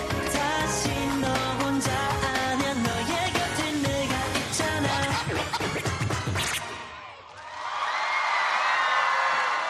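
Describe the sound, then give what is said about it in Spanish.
Loud cheering and shouting from a Korean audience greets the Spanish K-pop group Red Flag Dance at the K-pop World Festival in Changwon, South Korea. The cheering swells up as the preceding music cuts off. “Pues así es como recibió el público coreano al grupo español Red Flag Dance en el Festival Mundial de K-Pop de Chingwon en Corea del Sur el año pasado.”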